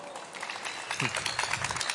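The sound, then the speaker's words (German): Applause from a studio audience welcoming the artist at a German arts-and-science show. Continuous, fairly soft clapping with an even patter, and a voice breaks through briefly in the middle. “Jetzt bitte einen großen Applaus auch für unseren Künstler heute.”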